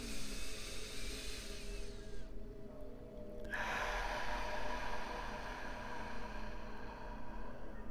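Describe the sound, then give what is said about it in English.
A deep breath is drawn in during a guided visualization exercise. The soft, airy inhale is a long, quiet hiss that thins briefly, then swells fuller and holds steady. “let's take a deep breath into it to activate it.”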